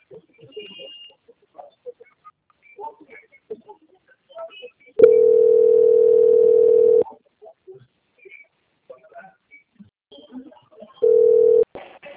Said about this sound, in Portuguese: Eu vou transferir já a sua ligação. Só um momento, aguarde em linha.